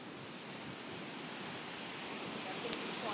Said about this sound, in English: Because the wind is going right to left, isn't it? Yes, it is.